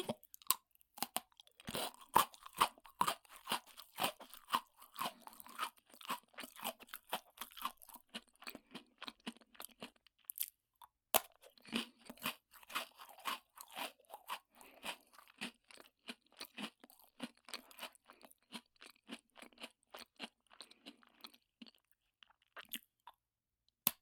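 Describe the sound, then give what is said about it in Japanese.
Crunchy chewing as someone eats four pieces at once: many sharp, rapid crunches keep up steadily alone, with a brief lull near the middle. “禁断の4本一気食い。”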